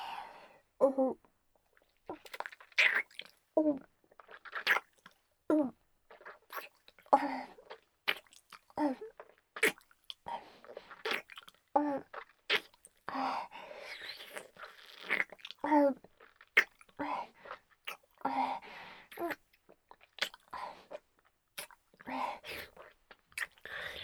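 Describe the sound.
Close, soft chewing and crunching of food, with many irregular bites and wet mouth sounds spread evenly throughout.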